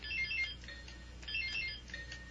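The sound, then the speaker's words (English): Electronic quiz show buzzers are tested in turn, giving a few short, high-pitched beeping tones that pulse and overlap at a fairly low level. “All right, everybody's buzzers are working.”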